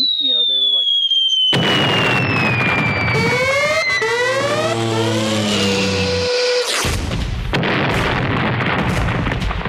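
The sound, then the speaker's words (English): Loud fireworks-like bomb bursts crackle densely throughout, and several whistling tones sweep downward in pitch. The noise briefly drops out before the bursting resumes at full force. “did you hear those bombs bursting in air and into your eardrums?”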